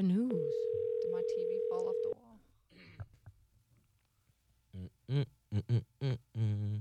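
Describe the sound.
A steady telephone dial tone sounds for about two seconds as a phone call is placed. It is loud, even and unchanging, and then stops. People talk briefly just before the tone and again after it.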